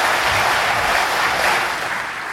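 Audience applause welcoming a comedian to the stage at a comedy club show, a loud, dense and continuous wash of clapping that eases slightly toward the end.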